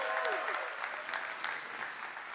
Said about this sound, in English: They're going to bring out a prop, and y'all give them a hand clap as they come.